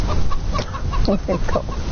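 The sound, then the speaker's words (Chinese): Chickens cluck in a run of short, choppy calls over a constant noisy background, heard from a television farm program about raising chicks. “这个是农业频道，怎么养小鸡？”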